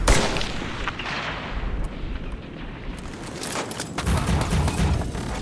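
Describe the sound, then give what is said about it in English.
Gunfire in a combat scene with a sniper in a tower: a loud, dense roar of blasts and rumble sustained throughout, strongest at the very start. “Those motherfuckers. They shot the kid.”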